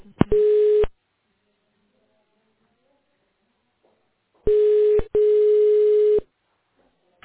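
Telephone line tones while a business call is transferred to the accounting department: a steady electronic beep in three bursts separated by long silence, the last burst about twice as long as the first two.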